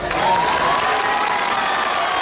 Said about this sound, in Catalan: Paraules que va pronunciar davant de més d'un centenar de veïns que el van anar ovacionant tota l'estona.